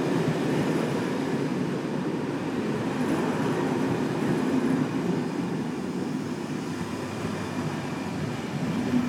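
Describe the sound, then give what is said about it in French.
A train pulls into a station platform with a continuous, loud rumble that holds steady for the whole stretch. Heavy low-end roar and broad noise are heard, with no distinct clanks or squeals standing out. “Le train numéro 11784 entrera en gare voie 9. Éloignez-vous de la bordure du quai.”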